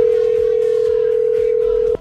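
A steady single-pitch telephone tone sounds on a phone line, holding unbroken for about two seconds before cutting off abruptly, with faint background noise beneath it.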